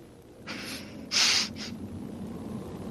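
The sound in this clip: A voice imitates a dragon's fire breath with a few breathy, hissing bursts. The middle burst is the loudest and longest, set against a low background rumble.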